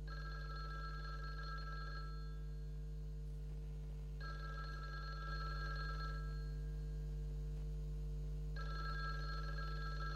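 A telephone rings in a regular pattern, with three bursts of about two seconds each separated by pauses, over a constant low hum.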